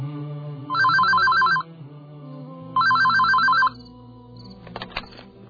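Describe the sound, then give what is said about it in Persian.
A telephone rings with an incoming call: two bursts of bright electronic trilling ring, separated by a pause, then a few brief clicks at the end. “الو، بله، هی بابا، ببین خواهر جان، امشب این دومین باره که داری به من زنگ میزنی.”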